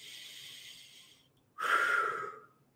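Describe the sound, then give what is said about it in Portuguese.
One strong, deep breath during a seated relaxation exercise with eyes closed: a long, soft airy inhale fades out, then after a short pause a louder, forceful exhale follows. “Fechar seus olhos, respirar forte, profundamente uma vez.”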